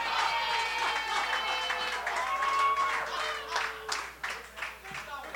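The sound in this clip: Crowd cheering and shouting from a birthday group in a room: a loud, dense wash of many voices that holds steady, then breaks into a few sharper bursts and whoops toward the end.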